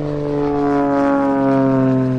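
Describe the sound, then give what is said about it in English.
A small gasoline-powered airplane takes off, its engine and propeller producing a loud, steady droning hum with strong harmonic tones that swells slightly. “This is the sound of a small gasoline-powered airplane taking off.”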